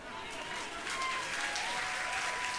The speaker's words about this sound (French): Tu as raison d'acclamer, pourquoi tu t'es arrêté?